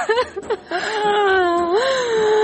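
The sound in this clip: A girl cries and wails in long, high, wavering moans, preceded by a few short, broken sobs.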